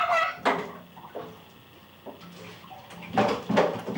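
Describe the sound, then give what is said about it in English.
Children splashing water in a bathtub: a few irregular bursts of sloshing and splashing, with quieter watery movement between them and no clear voices. “You guys are splashing an awful lot, please. Banging things is not okay in that.”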